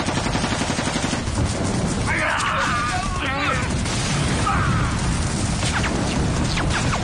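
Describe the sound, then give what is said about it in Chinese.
Rifle volley fire in a wartime ambush on Japanese soldiers: many overlapping cracking shots in a dense, continuous burst under shouting voices. “果然有埋伏，全体射击，瞄准日本鬼子，给我打！”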